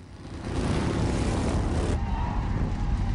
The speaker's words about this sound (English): Another biker gang roar into town.